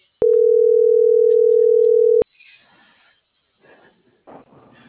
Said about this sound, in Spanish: le voy a marcar para ver qué onda y darle clave y todo.